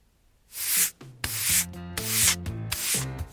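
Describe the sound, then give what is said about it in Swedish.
Rasping scrubbing strokes on a floor come in a few loud bursts with short pauses between them, over steady low melodic tones. “Under dagen så skrubbade Edgar golvet medan han suckade och stönade.”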